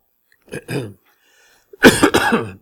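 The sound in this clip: Coughing from someone with a tickle in the throat: a short cough, then a louder, longer, rasping burst of coughs, with no talk.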